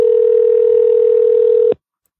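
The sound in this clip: Telephone dial tone, one steady, humming tone held loud and unbroken for under two seconds, then cut off abruptly into silence, with no talking.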